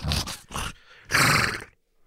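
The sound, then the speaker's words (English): A massive horse snorting and whinnying in a stable, three harsh breathy bursts, the first two short and the third longer and loudest, then quiet. “you see Hydrovor kicking the wall with both of their massive hooves, snorting and just a lather.”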